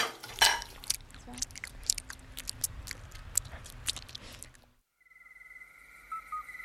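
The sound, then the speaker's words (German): Four friends eating a meal before a night hike make many small crunching, clicking and tapping noises at an irregular pace, which stop abruptly after about four and a half seconds. “Komm, wir essen jetzt noch mal was, bevor die Nachtwanderung losgeht.”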